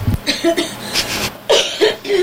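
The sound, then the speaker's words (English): Harsh coughing and throat-clearing from someone who has swallowed wrong: several rough, uneven bursts in quick succession, fairly loud and broken by short gasps. “Sorry, I swallowed wrong right as I took that last breath before speaking.”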